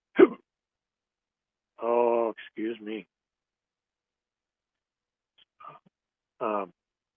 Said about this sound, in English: this is part of what's been wrong with me for the last few weeks. Uncontrollable hiccups.